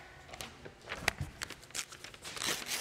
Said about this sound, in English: Rip it out. I don't hear enough ripping. I'm a classroom teacher. I know ripping when I hear it.